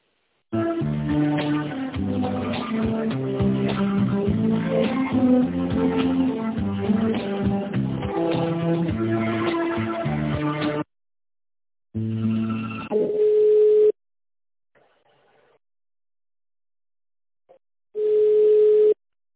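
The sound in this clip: Telephone line tones sound during a call transfer: two brief, steady mid-pitched tones about five seconds apart with near silence between, coming after a long, dense stretch of continuous sound.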